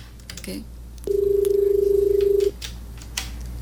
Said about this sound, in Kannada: Okay, ಕಾರ್ಯಕ್ರಮದಲ್ಲಿ ಮೊದಲ ಕರೆ.